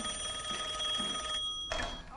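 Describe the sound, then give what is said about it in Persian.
A telephone bell rings with a high, steady, continuous tone for over a second and a half, then stops abruptly with a sharp click. “شوهر خوب یعنی این، تا اسمش آوردی زنگ زد.”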